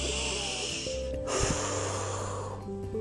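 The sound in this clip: A deep breath, drawn in long and airy, then after a brief pause let out again in an equally long breathy rush, over soft, steady tones.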